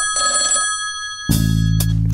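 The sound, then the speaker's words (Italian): A telephone suddenly starts ringing loudly partway through, after a quieter stretch of steady tones. The bell's rapid, rattling trill continues without a break to the end. “E invece, ecco che improvvisamente squilla il telefono.”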